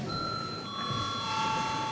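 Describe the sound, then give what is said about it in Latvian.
An electric bell rings in a parliament chamber before a vote, a steady, sustained ringing tone that holds at even loudness for the whole clip. “lūdzu zvanu.”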